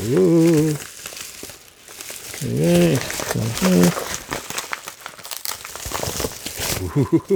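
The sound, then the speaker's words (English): Packaging crinkles and rustles as a parcel is cut open with scissors, producing many short crackling bursts mixed with a person talking throughout. “Oh, there's my parcel. Let me get my trusty scissors. Let's open it up.”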